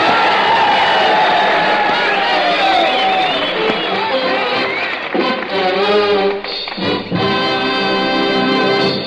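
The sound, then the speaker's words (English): A studio audience cheers and whoops in welcome for a radio quartet, a loud burst of crowd noise lasting about five seconds before it fades and a man starts talking. “So how about a rip-snorting welcome for a quartet that delivers corn so hot it simply puffs?”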